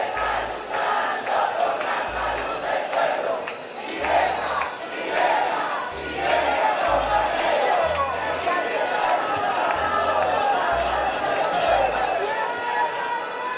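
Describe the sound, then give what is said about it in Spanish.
Marchers in a street protest chanting loudly as they pass a corner, a continuous crowd roar of rhythmic shouted chant over steady low thumps, with voices overlapping throughout. “Sí, es una marcha. Cantan bonitos los de la marcha, pero no les entendí, no sé por qué están protestando.”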